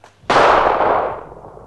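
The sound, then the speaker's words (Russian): A single gunshot fired into the air, one sudden loud crack that fades in a long, smooth decaying tail, heard alone. “Да зачем же ты стрелял, Аким? Да я в воздух.”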